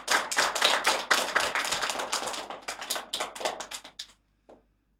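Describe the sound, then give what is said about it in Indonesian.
An audience gives loud, dense applause to welcome a student giving a speech. The clapping is steady at first, then thins out and stops after about four seconds, with one last isolated clap. “Mari kita sambut Jaden dengan tepuk tangan yang meriah”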